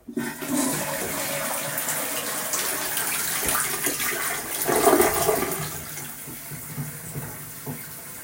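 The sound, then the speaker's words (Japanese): A toilet flushing: a loud rush of water runs steadily, swells to its strongest surge about midway, then eases into a quieter gurgle and trickle as the bowl refills. “おトイレ流します”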